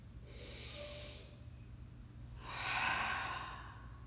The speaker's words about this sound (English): Let's enjoy a deep breath.